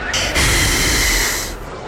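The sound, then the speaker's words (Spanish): A person blows steadily into a breathalyzer machine during a police check for drinking, a loud breathy hiss with a faint steady tone lasting about a second and a half. “Toma, respira en esta máquina.”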